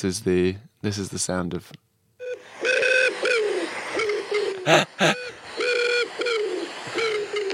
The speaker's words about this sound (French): Oui, c'est un son ridicule et c'est le son des pigeons le matin.